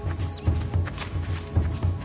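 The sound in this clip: Running footsteps of people fleeing along a narrow passage between rocks, heard as several quick, dull, low thumps in a steady, fairly even rhythm over a soft background hiss.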